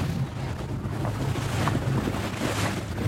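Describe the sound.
Maritime police motorboat leaving the Roucas Blanc nautical base in Marseille: a continuous, steady engine rumble mixed with rushing water wash and gusty wind noise, loud and unbroken throughout.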